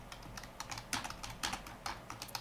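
Typing on a computer keyboard: a quick, irregular run of many light keystrokes, some clustered into short bursts, fairly faint and with no voices.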